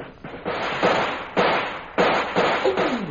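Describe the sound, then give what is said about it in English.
Gunfire sound effect from a firefight: several sharp shots spaced unevenly, each with a noisy, lingering tail. “We'll start firing again. We haven't much time.”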